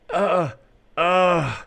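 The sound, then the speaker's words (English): A person imitates heavy breathing and moaning, mimicking a wrestler acting hurt after being tackled through a fence. Two loud, drawn-out moaning groans are separated by a brief pause; the second is longer and trails off in pitch. “openly breathing hard and just kind of moaning like,”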